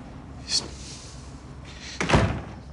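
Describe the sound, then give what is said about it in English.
A bedroom door being closed: a brief sharp click, then a heavier, longer thud that ends the motion, with quiet room tone between. “Hunter enters his bedroom and closes the door behind him.”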